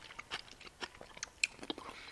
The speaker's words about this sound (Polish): Jem zupkę.